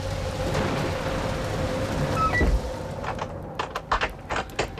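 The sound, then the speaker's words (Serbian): Rain on a stormy night, a dense, steady hiss with scattered louder patters and drips that grow more distinct toward the end. “Užasna je noć da bi bio napolju po ovakvoj kiši.”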